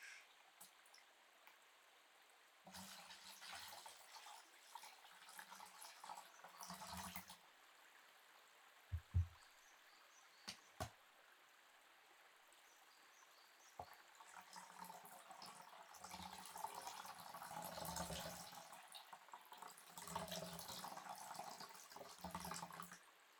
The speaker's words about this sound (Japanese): お湯と水を足して